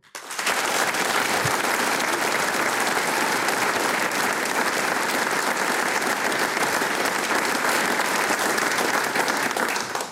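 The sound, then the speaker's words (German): Audience in the Arbeiterheimsaal hall in Vonsdorf applauding a music programme: dense, steady clapping mixed with cheers that holds at an even loud level from start to finish. “Und wie der Arbeiterheimsaal hier in Vonsdorf klingt, wenn er dieses Programm bejubelt, das klingt dann genau so.”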